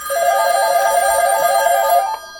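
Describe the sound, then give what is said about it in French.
A telephone rings in a radio station studio. The ring is a steady, bright electronic tone with stacked overtones, held for about two seconds and then cut off. “Le téléphone sonne tout le temps ici, de toute façon.”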